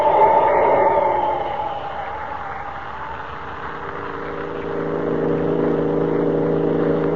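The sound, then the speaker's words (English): Car engine speeding up: a steady mechanical drone dips slightly in loudness, then swells louder again toward the end as the car gains speed. No voices are heard. “I'd better pile on speed.”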